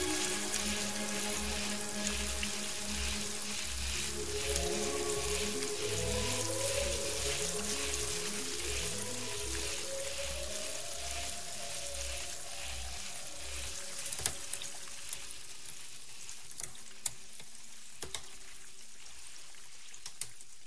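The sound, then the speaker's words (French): Ambience aboard a ferry at sea: a steady low throbbing pulse under shifting tonal drones and a constant watery hiss, with a few sharp clicks near the end. No voices. “Dans le ferry, probablement, en mer.”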